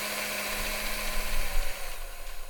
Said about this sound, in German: Schnell das Mehl dazu, noch alles mixen.